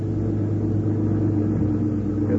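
A car driving an official home from the aircraft plant at Farnborough gives a steady, low engine and road rumble, constant and unbroken, with no voices.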